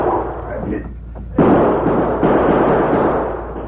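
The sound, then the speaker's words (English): Pistol gunfire in a radio drama shootout at a barn, as two crooks fire while running: a sudden loud blast, then another, followed by sustained rumbling noise. “the bullets from Sleepy and Max's guns whined toward them. The two crooks ran toward the open barn door as they fired.”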